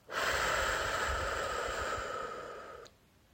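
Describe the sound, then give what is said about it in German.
A single long, deep breath during a guided relaxation exercise: a steady, airy hiss that lasts nearly three seconds, eases slightly, then stops. No one speaks. “Atme noch einmal tief ein und aus.”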